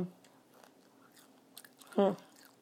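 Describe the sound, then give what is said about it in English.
Someone eats crunchy fast food fries, a few faint crisp bites and chewing crunches, with a brief louder vocal sound near the end. “These fries are really crunchy though, fast food fries. These are really good actually.”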